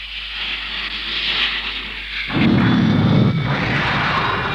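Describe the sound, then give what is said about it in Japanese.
A sci-fi sound effect of a mobile suit's rifle being fired: a steady, bright hissing whoosh gives way midway to a loud, roaring burst with heavy low rumble that holds and then eases off. No voices. “ライフルを発射します。受け取って。パワーは回復しているはずです。”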